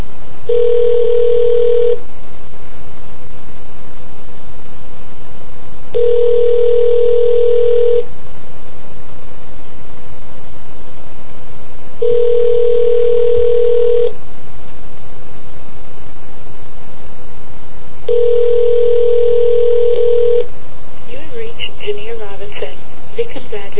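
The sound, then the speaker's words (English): Telephone tones while calling a Haitian hotline: four long, evenly spaced ringing tones, each about two seconds with pauses of roughly four seconds between, over a constant hiss on the line. “I'm going to go ahead and give a try to the Haitian hotline here. So, let me dial that up real quick.”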